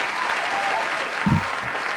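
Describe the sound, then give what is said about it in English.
Applause from an audience celebrating a business award, a steady, even wash of clapping that fills the whole moment at a fairly loud level. “There's the applause.”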